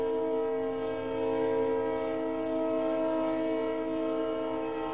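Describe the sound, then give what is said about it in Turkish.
A train passes through autumn woodland, with a loud, constant rumble and a steady tonal whine, like a held horn, that lasts the whole time with no break. “Tren geçiyor.”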